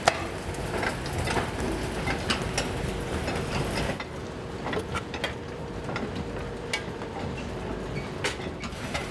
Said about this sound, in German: Weil hier wird die Mischung ja dosiert. Ja, von hier kommt ja der Sand, von hier kommt der Ton. In der Mitte auf dem Band trifft sich das ja.